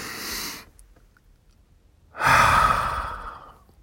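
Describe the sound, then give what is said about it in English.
A group takes a deep breath together on a count of three: a breathy inhale, a pause, then a long, loud exhale that fades slowly. “Let's all do it together. Let's take a deep breath.”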